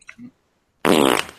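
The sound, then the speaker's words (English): A single loud fart, a buzzy, rasping burst lasting about half a second that trails off at the end. “asked if anyone heard his fart. Can you repeat it?”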